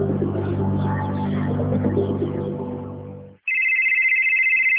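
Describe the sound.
A mobile phone ringtone sounds as a steady, bright electronic tone after a dense, low humming backdrop cuts off abruptly.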